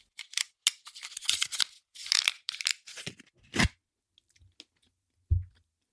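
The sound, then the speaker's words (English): Eating a warm air-fried mince pie: a series of crisp crunching bites and chewing in quick bursts, loud at first, then sparser and quieter, with no talk. “I am so filled with nervous excitement, I am tickling my taste buds with a little mince pie.”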